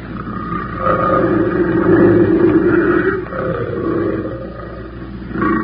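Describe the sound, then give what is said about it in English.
A big cat, a female, roars in the jungle with deep, rumbling growls that swell and fade in a few long waves, loud and alone with no voices. “She can't be far. Sound like she was just up the trail a piece. Keep the safety on that rifle, Benson. We're taking that cat alive.”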